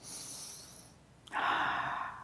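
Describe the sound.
Deep breathing during a guided relaxation exercise: a long, soft, airy breath fades out, then after a short pause and a faint click comes a louder, fuller hissing breath, with no talk over it.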